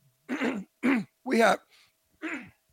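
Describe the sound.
Throat clearing from an 81-year-old man with a pollen-irritated throat: a few rough, voiced, rasping bursts with short gaps between them, heard alone with no speech.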